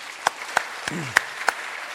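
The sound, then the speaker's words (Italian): Audience applause for a town council and mayor during a public talk, a soft bed of scattered clapping with a few sharper, louder claps standing out at irregular moments. “ancora voglio un grande applauso per la giunta e per il sindaco”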